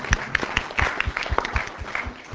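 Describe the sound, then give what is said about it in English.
An audience at a public lecture applauds the deputy director with fairly faint, loose clapping in which individual hand claps stand out unevenly. “Where is Mark Bowick? Our deputy director. So thank you, Mark. Applause for Mark.”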